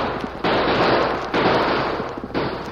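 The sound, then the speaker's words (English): Gunfire in a western shootout on a trail: three loud, sharp blasts, each followed by a long rough noisy tail that fills the gap before the next shot, with no voices. “Jake and Big Bill opened fire, then started down the trail at a fast pace.”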